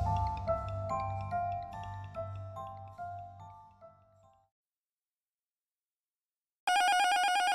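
An old-style telephone bell rings for an incoming call, a rapid metallic trill repeated in bursts that fades out, then silence before a loud steady tone starts abruptly.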